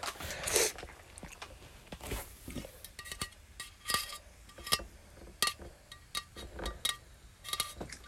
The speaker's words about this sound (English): Guys, if you can't hear that. It's cooking. Yeah, it's cooking for sure. I'm gonna flip it.